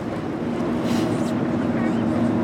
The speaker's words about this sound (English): We board the boat, a 56-foot vessel affectionately called the Salty Lady. And soon enough, we're cruising through the bay